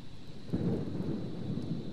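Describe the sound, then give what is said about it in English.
Steady rain with a low, rolling rumble of thunder that swells from about half a second in. It forms a continuous dense wash of noise with no voices. “Well, we sure do appreciate the rain.”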